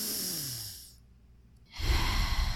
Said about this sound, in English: Remember to breathe